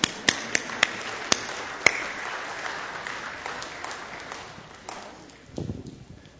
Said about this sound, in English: Let's give him a hand.